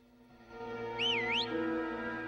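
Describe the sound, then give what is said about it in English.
A milkman whistles in an alleyway, giving one short, faint, wavering whistle that dips and rises in pitch over a steady low hum. “A milkman whistles in the alleyway.”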